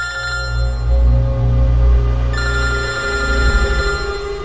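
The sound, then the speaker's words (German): A mobile phone rings with a steady electronic ringtone, bright tonal notes with rich overtones sounding continuously and fairly loud, with no talking. “sorry Leute, das war mein Handy.”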